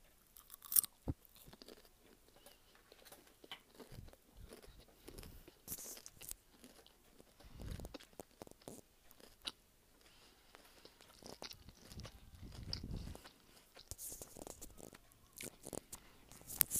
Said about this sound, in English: I'm just going to have one piece of chicken right now.